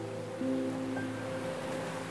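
Soft ocean surf on a beach with white sand and turquoise water, a gentle continuous wash heard faintly beneath sustained, calm tonal music.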